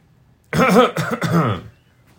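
Throat clearing and coughing from a person with something caught in the throat: three rough, voiced bursts in quick succession, moderately loud, with nothing else around them.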